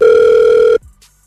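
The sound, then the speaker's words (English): One ringback tone on an outgoing telephone call, a loud, steady electronic hum held for under a second before it cuts off abruptly, leaving near silence and a faint brief sound after. “And that's why we're going to call him right now for you.”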